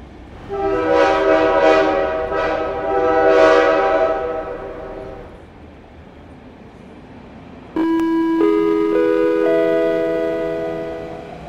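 A train horn at a railway station platform sounds a loud, chord-like blast that swells and fades over several seconds. After a quieter rumbling pause, a second abrupt onset of sustained tones follows and slowly dies away.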